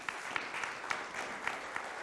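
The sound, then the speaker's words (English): Church audience applause, a soft, steady wash of many hands clapping, with a few sharper individual claps popping out at fairly regular intervals. “So give Aaron Jackson a round of applause, if you would.”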